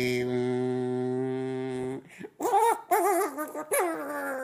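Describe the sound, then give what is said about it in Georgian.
A dog whimpers in a few wavering, high whines that rise and dip, following about two seconds of a steady held tone. “იმიტომ რომ ძაღლი ტირის.”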